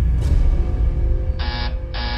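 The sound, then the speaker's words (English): A patient call button sounds a buzzer at a nurse's station: two flat, steady electronic buzzes separated by a short gap. They rise clearly above a constant background hum. “That's the sound of the patient call button at the nurse's station.”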